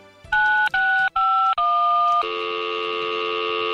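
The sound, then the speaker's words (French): Telephone keypad dialing tones sound as four short, loud beeps, followed by a steady, longer tone as the call reaches an answering machine, with no voices. “Vous êtes sur le répondeur de FMR.”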